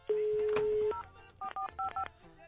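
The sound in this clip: Telephone keypad tones while a number is dialed: a long steady electronic tone, then a quick run of short, sharp paired beeps separated by brief gaps.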